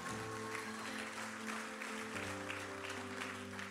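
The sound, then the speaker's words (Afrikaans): A church audience cheers and applauds: dense, steady clapping fills the whole stretch, with sustained held musical tones underneath that shift partway through. “Julle, so kom ons cheer net vir daai mense asseblief.”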